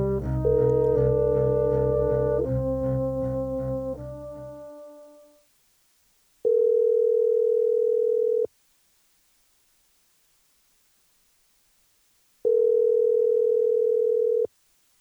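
A telephone call ringing: a short sequence of stepped electronic tones that fades out, followed by two long steady ringback tones separated by a few seconds of silence.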